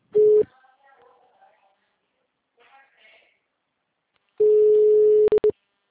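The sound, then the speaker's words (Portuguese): A telephone line tone sounds on an unanswered call: a steady mid-pitched hum in a short burst, then a faint voice, then a longer tone broken off by a few quick pulses. “Encaminhada para a caixa de mensagens. O número está ocupado.”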